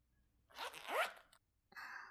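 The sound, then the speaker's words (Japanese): Trouser zipper being pulled down, heard as a few short rasping zips with quick upward-sweeping scrapes, fairly faint and without talk. “今、チャックを下ろして、ズボンをゆっくり下ろしてるよ。”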